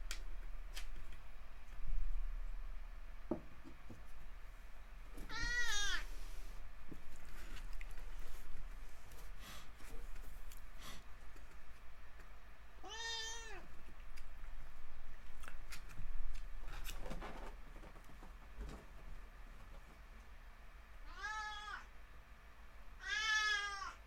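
A cat meows a few times, each a high, drawn-out, wavering cry separated by long quiet gaps with faint rustling and small clicks, soft overall.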